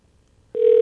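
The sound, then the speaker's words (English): After near silence, a telephone ringing tone starts abruptly as a call is placed, a steady, buzzy mid-pitched tone that holds at full loudness to the end. “One ringy dingy. Two ringy dingy. Oh, I hope he answers. Or she. We got three ringy dingies.”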